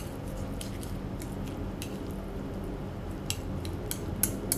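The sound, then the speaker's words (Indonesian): Metal utensil scraping and clinking as instant noodles are stirred in a pot, soft repeated scrapes over a low steady background, with a few sharper clicks near the end. “kita aduk dulu ya uh baunya sampai ke situ gak”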